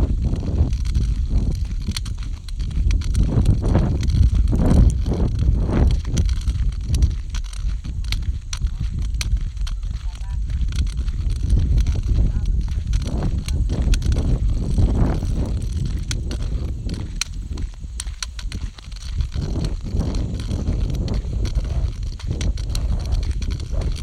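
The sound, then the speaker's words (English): Footsteps on an outdoor walk down to check the mail, a long steady run of many footfalls in an even rhythm, with wind noise rustling over the microphone throughout. “Welcome to Audio Boom, recording outside. Today, we're walking down and checking the mail.”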